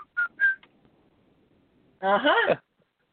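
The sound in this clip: Whistled notes of a cheerful work song: two short, high, pure tones in quick succession, then a pause and a brief burst of voice.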